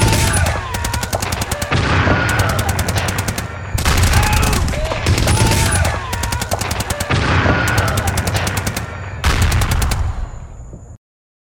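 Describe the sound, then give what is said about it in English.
Alien weapons fire rattles through a battle in loud bursts of rapid automatic blasts, separated by brief gaps. The firing then cuts off abruptly into silence. “What is left of the search team's amazement is canceled by more alien weapons fire as they battle it through to escape their predicament.”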